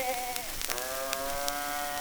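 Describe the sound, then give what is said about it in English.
A wind-up Noah's Ark toy sheep gives a drawn-out, buzzy bleat whose wavering tone dips early, then holds steady for about two seconds, with no talking. “right here, I've got old Noah's Ark and all of his animals. Wind her up, will you? There's a pig that squeals. Cow that moves. And sheep.”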